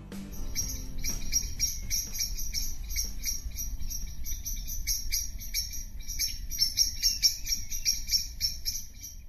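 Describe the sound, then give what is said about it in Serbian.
Crickets chirp on a summer afternoon in a forest, a dense, continuous high trilling that pulses in quick regular bursts over a soft low background rumble. “Evo vam jedno letnje šumsko popodne.”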